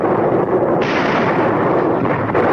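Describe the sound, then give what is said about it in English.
Rapid machine gun fire from a war film battle montage, heard as one loud, continuous, dense stream of gunfire with no gaps between shots. “Now a montage of battle images. German soldiers on the run, a rapidly firing machine gun.”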